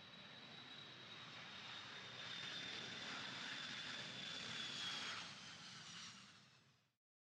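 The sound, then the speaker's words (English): An airplane comes in to land with a steady, droning engine roar and a thin high whine, swelling through the middle before fading out near the end. “We've been cleared for landing.”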